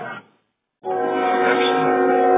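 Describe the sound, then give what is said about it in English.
A train with two engines sounds its horn in a long, loud, steady tone after a brief silence, following a shorter blast that is cut off at the start. “And another train going this way.”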